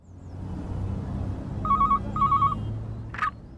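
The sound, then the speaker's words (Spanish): A telephone rings as a call is placed from a public phone kiosk: two short, steady ring bursts over a low rumble, then a brief click. “Vamos al kiosco. Ahorita le vamos a llamar.”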